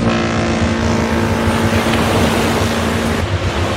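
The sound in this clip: Cruise ship at sea, with a steady engine drone, a constant low hum and a broad wash of water and waves. The sound holds at an even, loud level throughout, with no voices.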